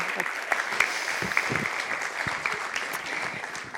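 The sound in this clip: An audience gives steady, continuous applause welcoming a speaker to the stage, a dense patter of clapping that holds at an even level throughout.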